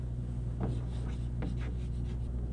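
A pen draws a circle in a few short, scratchy strokes, faint over a steady low hum.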